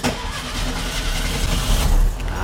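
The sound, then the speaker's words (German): A VW Beetle (Käfer) engine starting as the ignition key is turned: a low, rough mechanical rumble of cranking that swells into a louder burst as the motor catches, then settles slightly. “Drum drehen wir jetzt einfach mal den Zündschlüssel um.”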